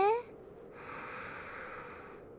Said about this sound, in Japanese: 吸って、吐いて、吸って、